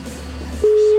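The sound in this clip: Telephone ringback after a number is dialled: low background hum gives way to a single steady, loud, mid-pitched tone that starts partway through and holds unbroken to the end.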